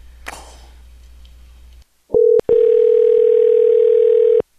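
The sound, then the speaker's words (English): A telephone dial tone sounds before a number is dialled. A clatter comes first, then a brief burst of steady tone and a short break, then a long, unbroken, even hum of about two seconds that stops abruptly. “There's a Medicare number that I didn't dial yet, I guess.”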